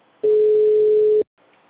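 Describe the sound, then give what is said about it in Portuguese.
A telephone ringback tone while placing a call: one steady low tone lasting about a second over faint line hiss, then a short silence and soft hiss again. “Estou ligando.”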